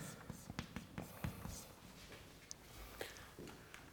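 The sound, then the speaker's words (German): Faint scratchy strokes of handwriting, with a few short, soft bursts of marks being written one after another and a low background hum. “Ich schreibe es aber schon mal gleichzeitig untereinander.”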